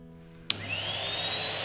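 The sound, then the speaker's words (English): A vacuum cleaner switches on abruptly after a low, quiet hum, then runs as a steady loud rush of air with a whine that rises in pitch as the motor speeds up. “That's OK, I'm going to get vacuuming now. Oh, let me get the vacuum”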